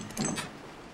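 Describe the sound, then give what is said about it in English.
A door being opened makes a short, quiet scraping rattle that swells briefly and then fades into a low hiss. “Come on, then. Let's get this door open.”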